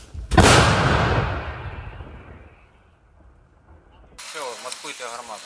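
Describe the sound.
A 155mm Paladin howitzer fires in Ukraine with a single sudden, heavy boom followed by a long rumbling decay that fades over a few seconds, before a voice begins speaking.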